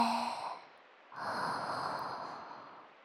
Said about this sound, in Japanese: 全身の力を抜こうね。ちょっと深呼吸しよっか。吸って